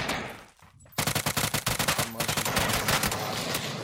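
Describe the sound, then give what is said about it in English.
Video-game gunfire: after a brief quiet dip, rapid automatic weapon fire breaks out in many sharp, closely spaced shots that continue in a loud, rattling stream. “Shot this guy a couple times.”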